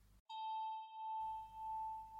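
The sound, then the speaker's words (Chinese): A single bell chime used as a relaxation cue, struck once and ringing with a clear, pure tone that sustains for about a second with slow, gentle wavering. “你的大脑听到我的铃声，它就知道要放松。”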